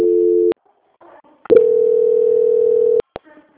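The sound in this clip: Telephone line tones during a call transfer: a steady mid-pitched tone, a gap of near silence, then a longer sustained tone, ending in a few short clicks or blips.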